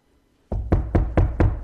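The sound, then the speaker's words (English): Knocking on a door after a moment of silence: five firm, heavy raps, evenly spaced and deep-toned. “Behold, I stand at the door.”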